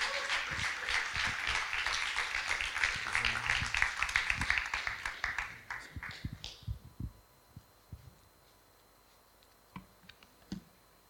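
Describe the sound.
Audience applause welcomes a speaker, dense steady clapping for about six seconds that then thins out into quiet, with a few scattered isolated claps near the end.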